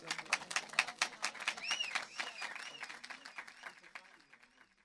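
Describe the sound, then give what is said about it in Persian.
Audience clapping during a devotional praise recitation: many quick claps in a fairly even rhythm, with a voice drawing out melodic notes over them, the clapping thinning and fading toward the end. “یک کف مرتب بزن.”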